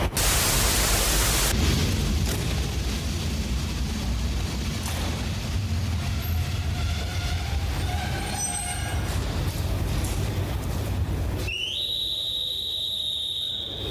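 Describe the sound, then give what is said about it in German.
Sunday-morning train station platform ambience: a steady broad rush of noise throughout, with a sustained high whistle-like tone entering near the end and no voices. “Es ist der 11.07. Sonntagmorgen und ich stehe gerade am Bahnsteig.”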